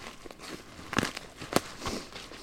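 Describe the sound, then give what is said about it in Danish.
Footsteps on muddy forest ground: a few uneven, crackling steps squash down one after another, soft between the sharper footfalls. “Nå, her hvor vi går, der er der godt mudret. Der er mudret, ja.”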